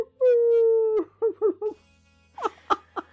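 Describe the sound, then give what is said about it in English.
A voice imitates neighborhood dogs howling and barking: one long, steady howl, then three short yelping barks, then a few louder broken cries. “And all of a sudden, all the neighborhood dogs start going,”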